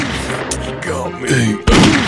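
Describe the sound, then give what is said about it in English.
Gunshot in the video game Grizzly Gulch: one sharp, loud blast bursts in near the end, following a stretch of busier game sound. “He got me. He shot me. He shot me. He got me.”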